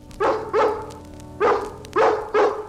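A dog barks five times in short, punchy bursts: two quick barks, a pause, then three more in fairly even rhythm, loud and alone.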